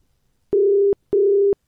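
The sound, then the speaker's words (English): An outgoing telephone call rings out. The ringing tone comes as two short, steady, low-pitched bursts with a brief gap between them, clear and alone against silence. “All right, it's ringing.”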